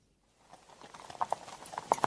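Hooves of saddled horses clip-clop in an uneven rhythm. The hoofbeats start faint and grow steadily louder, with several sharper strikes near the end and no voices.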